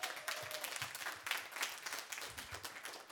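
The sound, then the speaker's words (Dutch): An audience at a Dutch debate event applauds one of the teams. The clapping is loud and dense and rises and falls in waves for the whole stretch. “Geef jezelf even alvast een groot applaus.”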